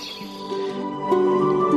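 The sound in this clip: Amphibians call from a pond in the rain at night, sustained tonal trilling notes layered over one another and growing slightly louder toward the end.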